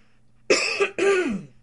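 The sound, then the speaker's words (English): Two rough, throaty coughs from a man with a frog in his throat, each a loud harsh burst with a brief gap between, heard alone with no talk. “Excuse me, I'm going to cough for just a second.”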